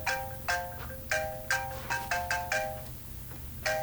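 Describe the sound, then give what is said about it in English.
A phone voicemail notification tone chimes over and over, with many short, bright electronic beeps in an uneven pattern and a pause before a final one. It sounds fairly soft over faint background noise. “Is that another voicemail? Yes.”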